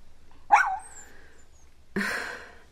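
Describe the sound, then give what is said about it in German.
Two short, sharp barks from a small, light-brown dog, spaced well apart with quiet between them and no talk. “sitzt ein putziger hellbrauner Hund auf den Hinterbeinen und hält die Vorderpfoten vor der Brust gekreuzt.”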